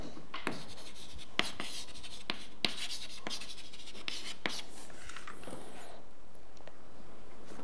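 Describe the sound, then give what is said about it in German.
Chalk writing on a board during a physics lecture: many quick scratching and tapping strokes in an irregular rhythm, with no voices. “Und das schreiben wir jetzt einfach auf.”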